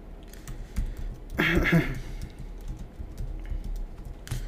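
Typing on a computer keyboard while writing HTML list tags, quiet, irregular key clicks with a denser, louder burst of keystrokes partway through.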